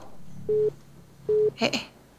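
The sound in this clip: Telephone busy tone after a dropped call: two short, steady mid-pitched beeps, evenly spaced and moderately loud, with no talk over them.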